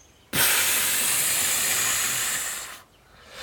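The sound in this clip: A long, steady hiss of air blown out hard, a sound effect for a stuck character trying to make himself smaller, loud and alone for about two and a half seconds before cutting off.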